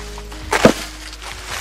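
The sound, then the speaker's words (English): One loud, woody thwack of an axe splitting wood outdoors on a cold April day in North Pole near Fairbanks, a sharp double-peaked chop standing out from quiet surroundings. “She's out chopping wood on this cold April day,”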